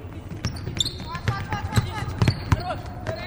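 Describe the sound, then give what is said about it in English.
Basketballs are dribbled at a Saturday afternoon practice of a Russian women's team, a few dull thumps on the court amid busy gym noise. “Here they are at Saturday afternoon practice, dribbling, passing, shooting, rebounding.”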